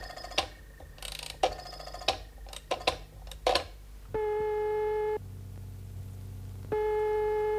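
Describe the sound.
Telephone dialing: a burst of irregular dry clicks comes first, then a sequence of steady line tones in three held segments, the middle one lower in pitch. The whole call attempt is faint and has no talk over it.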